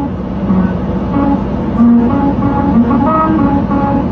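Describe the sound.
Car tyres roll over a grooved musical road in Hungary, the vibration turning into a humming tune of shifting sustained tones that rides over a constant rumble of road noise.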